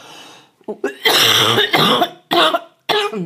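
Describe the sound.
A run of harsh, throaty coughs comes in several bursts of uneven length, mixed with raspy throat clearing from a scratchy throat. The coughs are loud and close together.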